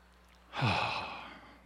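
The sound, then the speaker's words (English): A single deep, slow breath taken during a guided breathing pause, heard alone as a long, airy whoosh that swells quickly and then fades gradually. “So let's take a breath with that, huh?”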